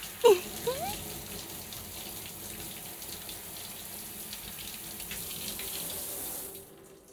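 Water runs steadily while hair is rinsed, a soft, even hiss of spray that continues for several seconds and then cuts off near the end.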